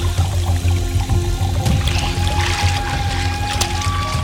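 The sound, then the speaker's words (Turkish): Running tap water pours over someone's head in a downstairs bathroom, a steady, continuous rush of splashing water that holds an even loudness throughout with no talk. “Aceleyle alt kattaki banyoya girdim. Başımı musluğun altına soktum. Hiç kıpırdamadan öylece durdum.”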